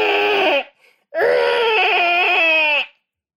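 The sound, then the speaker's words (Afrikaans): Someone crying: two high-pitched wailing bursts, a short one and then a longer, wavering sob, each breaking off sharply, with no talk. “Dit klink soos iemand wat huil.”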